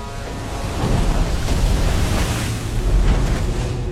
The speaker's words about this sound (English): The ship moves steadily through the water.